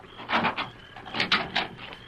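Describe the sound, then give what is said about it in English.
A door being opened: a few brief scraping, rattling bursts of noise in two loose clusters, moderately loud and with no voices. “Open the door.”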